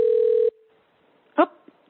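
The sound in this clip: A Skype call being dialed: a steady mid-pitched electronic tone holds for about half a second and cuts off. After a short silence comes a brief faint blip.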